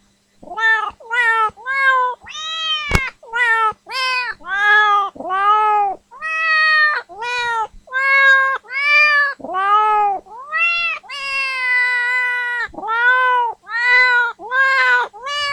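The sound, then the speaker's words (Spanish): A cat meows many times in quick succession, each meow a loud, clear, arched cry that rises and falls in pitch, with short pauses between calls and no voices. “Y ahora un gato nos pasará un aviso.”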